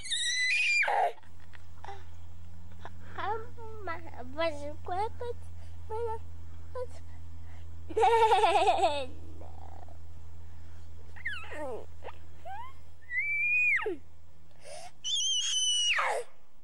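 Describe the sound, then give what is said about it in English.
A young child whining in a home video, with high-pitched whines and wails that bend up and down in pitch, separated by short pauses, over a steady low hum. “This will show you how when you were whining when you were a little kid.”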